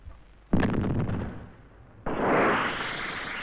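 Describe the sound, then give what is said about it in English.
Launch of a Bloodhound surface-to-air missile: a sharp, heavy blast that slowly decays, followed by a second burst swelling into a sustained, hissing roar. “When the missile's fired, a receiver in its nose picks up reflected radar energy and homes in.”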